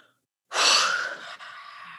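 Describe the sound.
A voice imitates breathing on someone's face: a sharp, loud inhaled gasp after a moment of silence, trailing into a softer, longer breathy exhale.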